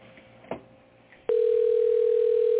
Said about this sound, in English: I hear a ring.